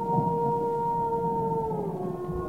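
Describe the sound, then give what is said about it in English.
A long, drawn-out howl from a wolf or coyote in the wild, held on a steady pitch that sags slightly near the end, over a low background rumble. “I heard that. Look, I know there are wolves out here, okay? Coyotes too, and I know what they sound like.”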